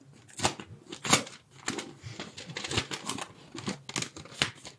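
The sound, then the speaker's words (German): Paper rustling and crinkling as a slip is pulled out of a small envelope, a series of sharp, crackly bursts of uneven rhythm at moderate loudness, with no voices. “Und dafür habe ich einen kleinen Umschlag für Sie vorbereitet. Da dürfen Sie gerne mal den Zettel rausziehen und vorlesen, was dort steht.”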